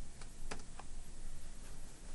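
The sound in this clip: Someone types a password on a computer keyboard while connecting to a remote Windows virtual machine, giving a few light, irregular key clicks set against a steady background hiss.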